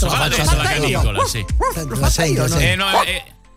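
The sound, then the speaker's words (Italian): A medium-sized dog barks in a few short, tonal yelps and woofs, mixed in with people talking throughout. “sì, questo è di media taglia il cane”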